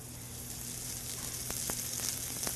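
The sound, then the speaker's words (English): Green onions sizzle in about a tablespoon of hot oil while being stirred quickly with chopsticks: a steady, fairly quiet hiss with a few faint sharp ticks, and no talking. “And just using chopsticks, you've got to move really fast so you can cook the green onions evenly. And you create this green onion oil”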